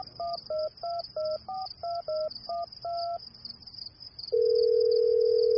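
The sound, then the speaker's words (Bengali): Touch-tone beeps as a telephone number is dialed: a quick run of short, clear two-tone pips in an uneven rhythm, a brief pause, then a steady, unbroken tone that holds to the end. “প্রণয়ের ফোনটা কেটে দিগন্ত আবার dial করে।”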